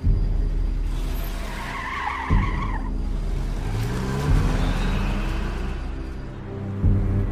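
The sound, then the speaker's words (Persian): Car taken out of a yard and driven off with squealing, skidding tires: a loud engine roar under a high, wavering tire screech, then continued revving and tire noise as it pulls away. “حجت ماشین عمادو از حیات آورده بیرون. تنهایی سوار میشه میره.”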